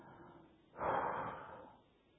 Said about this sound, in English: Then the second thing I do is I breathe.